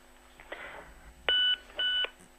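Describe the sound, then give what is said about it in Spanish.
Two electronic beeps on a phone call line, each steady in pitch and about a quarter second long, separated by a short gap over faint line noise. “Ah, es que hemos escuchado un pitido y digo, sí, a ver yo si también se me colgó.”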